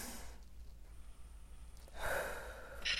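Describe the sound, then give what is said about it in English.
A deep breath taken as a calming exercise: a soft, breathy inhalation that swells near the end, with fainter breath noise at the start and no talking. “take that deep breath.”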